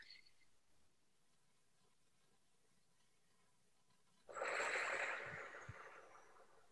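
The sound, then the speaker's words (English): A deep breath during a guided breathing exercise: after several seconds of near silence, a soft breathy rush of air swells quickly and then slowly fades, with no talking. “So here we go with three deep breaths. I hope you'll join me. Breath number one, just pay attention to your breath.”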